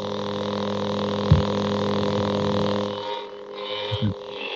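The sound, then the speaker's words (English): A lightsaber gives off a steady, buzzing electric hum with a low, even drone, broken by a couple of brief swelling pulses. “It's a lightsaber for those that can't see. If you don't know what that noise is, that's what that is.”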